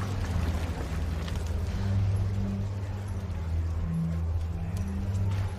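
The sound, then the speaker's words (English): Motorboat engine droning on a river, a steady low hum that stays fairly even across the whole stretch with no break. “Two men in a motorboat appear.”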